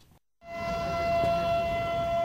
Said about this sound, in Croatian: Simbolično, sirenom za uzbunu i zvukom voza u Grdeličkoj klisuri počelo je obilježavanje dana sjećanja na žrtve NATO bombardovanja.